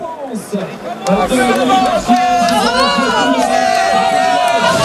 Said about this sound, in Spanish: Se le oye más al público que a él abrazándose con sus auxiliares.